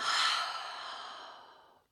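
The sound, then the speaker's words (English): Deep exhale through an open mouth during a guided breathing exercise, a long, soft, breathy rush of air that starts strong and slowly fades over about two seconds, heard alone. “One more time, deep, long breath in. Open mouth, exhale, let it out.”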